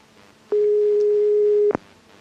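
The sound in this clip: A single steady ringback tone on a telephone call, one flat, low-pitched beep lasting just over a second, alone, with a faint click at its start and end.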